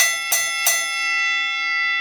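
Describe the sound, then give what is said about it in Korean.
A boxing match bell rings out with two quick, loud metallic strikes close together, then a long, bright sustained shimmer that slowly fades. “종이 울렸는데도 연희는 계속 준이에게 펀치를 날렸다.”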